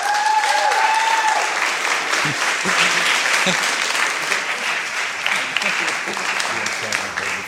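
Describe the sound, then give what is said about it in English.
Audience applause welcoming a preacher to the stage at a church service: dense, steady clapping that fills the whole stretch at an even loudness, with no pauses. “So, ladies and gentlemen, let's put our hands together and welcome Dan Sneed.”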